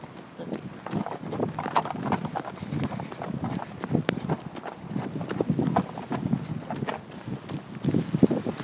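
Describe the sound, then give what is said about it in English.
Quick running footsteps of people, a rapid, fairly even patter of many light impacts that continues throughout at moderate loudness. “Right, we're running.”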